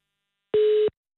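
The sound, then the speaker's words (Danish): Telephone tone on an unanswered call: one short, steady mid-pitched beep lasting about a third of a second, alone between silences. “Ja, men ved du hvad, så ringer vi bare til Pernille Vermund i stedet, når han ikke tager telefonen.”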